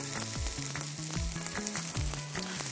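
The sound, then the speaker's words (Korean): Carrots stir-fry in a hot pan with a steady, loud sizzle, and short scraping and clanking stir strokes recur throughout. “당근 1분 정도 먼저 볶아. 그 다음 다른 재료 넣을 수 있어요.”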